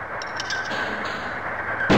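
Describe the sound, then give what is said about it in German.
Bombs explode in a submarine video game. A muffled, rumbling roar holds steady throughout, and a sharper, louder blast bursts in at the very end. “und da fallen die ersten Bomben.”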